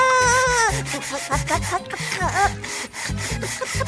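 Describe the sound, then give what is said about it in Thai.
Scrubbing a surface clean with a brush in a children's cartoon: many quick, rhythmic rasping strokes repeat steadily, with tonal sounds over them at the start. “ถ้างั้นข้าขัดด้วยกันแล้วกันขัดขัดขัด”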